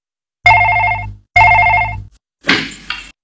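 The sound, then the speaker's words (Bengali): Telephone bell ringing, two loud, even rings separated by a short gap, followed by a brief rattling clatter as the ringing stops. “ওই তো phone পাচ্ছে। দাঁড়া দাঁড়া, আমি ধরছি।”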